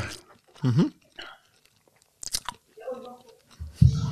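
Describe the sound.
Lip smacking and chewing, several short wet bursts and crunches at irregular intervals, fairly quiet, with pauses between them.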